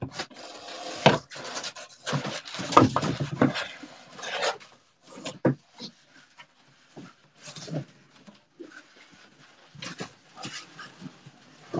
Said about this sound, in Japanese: 段ボールがめっちゃ邪魔だな、ちょっとどかすか、もう中身入ってないから、入ってないよね